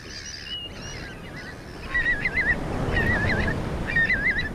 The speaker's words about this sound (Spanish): lo que es este es el ambiente de la marea baja en las costas de Galicia.